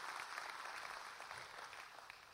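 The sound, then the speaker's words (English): Applause from a church audience thanking people for their work, a faint, steady wash of many hands clapping that continues throughout. “And I think, folks, they deserve a great round of applause. So would you just tell them thank you.”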